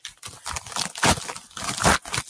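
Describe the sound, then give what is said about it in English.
Paper tears and crinkles as a big padded envelope is opened. A few sharp rips and rustles come in uneven bursts at fairly low volume, with no talk. “I'm opening this one. It's a it's a big padded envelope here.”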